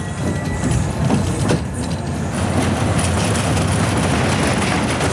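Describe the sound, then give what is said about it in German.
Rattling and clattering of a fairground ride rushing over its rails through tight curves at a funfair, a continuous loud mechanical roar with rapid clicking throughout. “Über enge Kurven und Schienen saust das Fahrgeschäft.”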